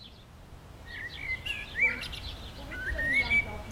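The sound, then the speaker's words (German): Birds chirping at a playground in a residential area of Schwerin. A few short, high chirps and whistled notes rise over a quiet, faintly rumbling background. “Auf dem Spielplatz hört man die Vögel und kaum Kinder.”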